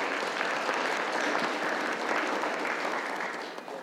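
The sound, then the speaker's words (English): Audience applause welcomes a speaker coming up to the stage, a steady, dense clapping that holds level and then tapers slightly at the end. “So would you give them a warm hand as Darren comes up?”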